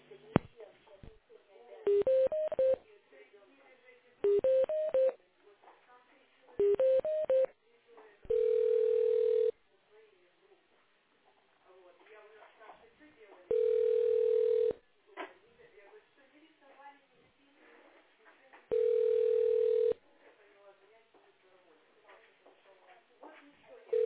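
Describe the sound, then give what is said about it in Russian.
Telephone line tones during a call transfer while the caller waits on hold: three short melodic tone bursts, then three steady, evenly spaced ringing tones of about a second each, separated by quiet stretches. “Сейчас я вас соединю с инспектором. Подождите, пожалуйста.”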